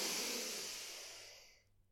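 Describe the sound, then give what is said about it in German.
A deep breath drawn in, a long soft airy hiss that is faint and alone, fading out near the end. “wir atmen alle mal tief ein und aus. Nochmal tief ein.”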